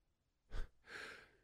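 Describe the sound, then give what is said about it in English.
A sneeze in the middle of a story: a short, sharp, explosive burst, then a longer, softer breathy hiss fading out. No talking. “that was a bad time to sneeze in the middle of a story.”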